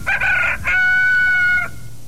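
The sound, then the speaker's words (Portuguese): A rooster crows weakly in one long, loud, harmonic call of about two seconds. It opens with a rough, wavering start, then holds a steady tone before stopping abruptly, with no other sound. “O teu o galo canta também, é. Tá cantando fraco”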